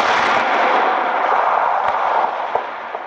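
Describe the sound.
An artillery gun firing as a sound effect in a radio play of War of the Worlds: a loud, steady roaring blast with a few sharp cracks popping through it.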